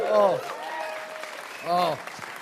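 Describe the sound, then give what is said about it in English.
Crowd clapping during a talk, a steady patter of applause broken by two louder bursts of vocal cheering. “we definitely do not deserve that clapping.”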